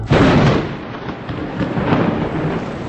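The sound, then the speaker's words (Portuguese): Thunder breaking over a winter pasture, a loud, deep rumble that bursts in at the start, eases briefly, then swells again as it keeps rolling. “Na invernada deu uma trovoada,”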